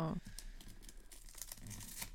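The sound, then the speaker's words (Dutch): Paper tearing and crinkling as a wrapped gift is opened, a faint stream of soft rustles and short ripping bursts. “Ja, alleen het uitpakken hiervan is wel wat lastiger.”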